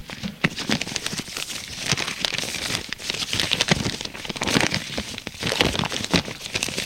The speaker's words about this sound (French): Elle ouvre l'enveloppe.